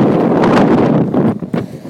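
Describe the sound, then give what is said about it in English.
Cold wind on a boat's top deck, buffeting the microphone with a loud, steady roar that turns into choppier, uneven gusts toward the end. “the cold wind feels great, though, after the past few days of extreme 90s heat.”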